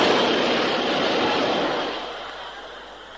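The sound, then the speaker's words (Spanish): A subway train rushes past, a broad, steady roar of air and rail noise that fades over the last second. “¿Nota la brisa del metro? ¡Qué sensación!”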